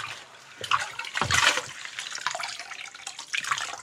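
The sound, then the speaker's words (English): Water sloshes and splashes steadily as something is washed in running water, with fluctuating gurgles and occasional louder swishes, no voices. “Here I am washing something. What am I washing?”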